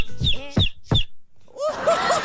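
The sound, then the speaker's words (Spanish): A child imitates a chicken with voiced clucking sounds: three short, punchy clucks, a brief pause, then a longer wavering run of higher clucks. “Yo sé hacer un pollo.”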